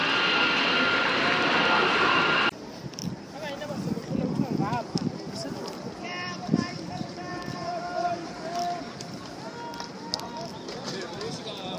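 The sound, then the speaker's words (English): Loud, steady roar of a departing Indian Airlines aircraft engine on flight IC408 to Calcutta. The roar cuts off abruptly and gives way to quieter sound with people talking. “Indian Airlines announces the departure of their flight IC408 to Calcutta. Passengers are requested to proceed to the aircraft.”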